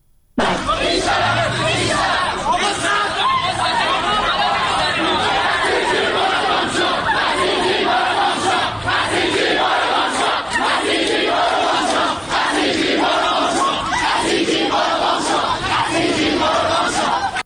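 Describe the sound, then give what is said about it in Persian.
A loud crowd of students shouts and chants slogans during violent clashes with Basij forces at Amirkabir University (Tehran Polytechnic) in Tehran. The dense yelling runs without a break throughout. “میتونیم الان بخشی از صدای این خشونت‌ها رو بشنویم که در دانشگاه امیرکبیر یا پلی‌تکنیک تهران رخ داده؟”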